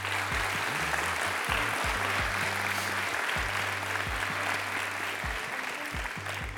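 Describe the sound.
An audience applauds a speaker introduced as a preacher at a book event, producing a continuous, even wash of clapping that holds at a steady level from start to finish.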